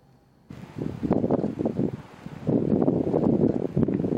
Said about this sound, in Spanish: Esto que escuchan, el viento, es el mayor enemigo del incendio en Niebla.